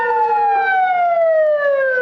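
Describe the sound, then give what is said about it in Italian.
Ambulance siren at night in Kabul after an attack, a single loud, sustained wailing tone that slides steadily downward in pitch throughout. “Le sirene delle ambulanze hanno spezzato la notte della capitale afghana.”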